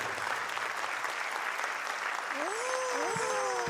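Steady, dense applause from an audience at a televised show, continuous and even in loudness from start to finish, with a few sustained tones entering in the last second or so.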